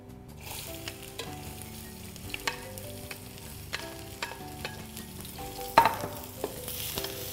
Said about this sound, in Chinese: 太多呢，我就多加一些油，洋葱和辣椒，